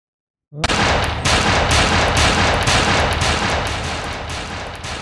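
Gunfire at a shooting range: after a brief silence, loud, rapid automatic shots fire in a dense, continuous burst that holds steady for several seconds.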